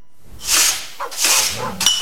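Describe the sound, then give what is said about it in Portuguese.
A dog barks a few times in harsh, noisy bursts, each bark blending into a rough, hissing texture with no clear tone between them. “Sai pra fora, cachorro.”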